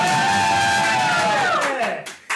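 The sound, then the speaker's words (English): A live studio audience cheering loudly, a sustained roar of voices and whoops that stays loud, then briefly dips and cuts off near the end. “I'd like to give a shout out to the live audience that is with us, so please, audience, let them know you're here.”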